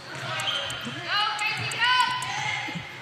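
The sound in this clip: A basketball is dribbled on the court during a women's game, with many soft, rhythmic bounces under a commentator's continuous talk.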